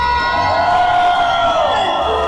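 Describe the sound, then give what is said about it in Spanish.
A crowd cheers and shouts at a live radio station anniversary event, producing a loud, sustained roar of voices and whoops that does not let up. “grito, señores, de toda la gente hermosa del Valle de México de Cristal 103.7.”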